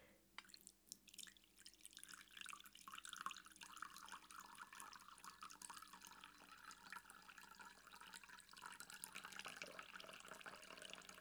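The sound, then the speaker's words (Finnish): Freshly ground, dark-roast coffee from high-altitude beans is poured, giving a faint, continuous liquid trickle with light dripping and no talk. “Hyvää kahvia, aromirikasta. Kaadetaan vähän.”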